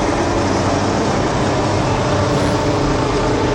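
Onboard sound from Max Verstappen's Formula 1 racing car: a loud, steady roar that stays even and unbroken throughout, with no voices.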